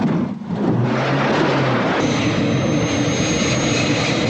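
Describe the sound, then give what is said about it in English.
A helicopter's rotor blades start spinning on sandy ground, a loud, steady engine roar with a high whine joining partway through. “Another security vehicle speeds toward them. I the helicopter blades begin spinning.”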